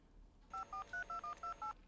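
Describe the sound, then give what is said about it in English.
A telephone is dialled with seven short, evenly spaced keypad tone beeps, each a clean steady two-note electronic pitch, sounding alone over a quiet background. “I can use phone to call chef.”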